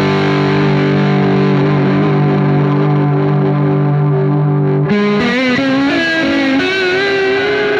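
Electric guitar played through a Fairfield Electronics Falling Water pedal with a warped-vinyl effect: a loud, distorted chord is held steady, then shifts into new notes that waver and warble in pitch.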